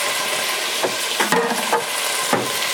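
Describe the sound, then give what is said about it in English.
Panang red curry paste sizzles as it fries in ghee, giving a steady broad hiss. A few short stirring scrapes cut through as the paste is stirred almost constantly. “So all I'm doing now is just blooming the curry paste to develop those flavors in the oil.”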